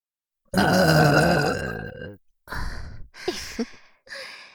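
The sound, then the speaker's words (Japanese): Burping from several directions at once: a long, loud, rumbling belch, then after a short pause a few shorter, separate burps in quick succession. “お兄さんゲップに囲まれてんじゃん。”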